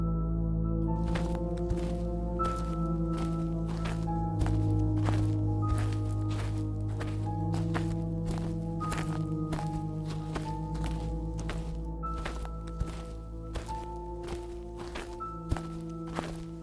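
Footsteps walking across outdoor grounds, many regular steps at a steady walking pace over a sustained musical drone with soft tones.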